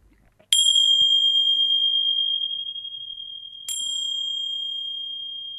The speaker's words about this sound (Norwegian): lyden av de her bjellene her, som du kaller det, jeg vil si symbolet, den veldig kjent. Så jeg kan jo foreta en liten sånn demonstrasjon her.